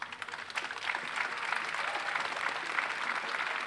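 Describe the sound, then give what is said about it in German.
Applause at a community memorial gathering with speeches: dense clapping that swells over the first second, then holds steady and full until the end. “Herzlichen Applaus.”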